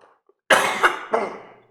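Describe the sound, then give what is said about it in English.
Coughing from someone who says they are about to choke: three rough, throaty bursts in quick succession, loud and alone, the first the strongest, with a throat-clearing edge. “I'm about to choke.”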